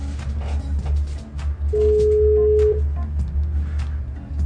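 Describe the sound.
Telephone call being placed: a single steady ringing tone lasting about a second sounds over a continuous low background hum, with no voices.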